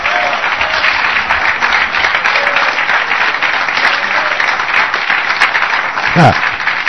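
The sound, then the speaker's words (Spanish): Audience applause during a church sermon: dense, steady clapping from a crowd fills the whole clip at a constant loud level, with no pauses. “¡Aplausos!”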